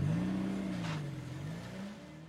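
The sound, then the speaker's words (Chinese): A car engine running as the vehicle pulls away, a steady motor drone whose pitch wavers up and down before easing off slightly. “傅文铎再次启动车子。”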